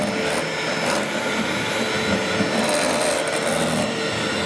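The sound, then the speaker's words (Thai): Electric egg beater mixing in a kitchen demonstration gives a steady, loud whirring drone with a gritty, buzzing texture that holds constant throughout, with no talk over it. “อันนี้จะเป็นเครื่องตีไข่เครื่องตีไข่นะ”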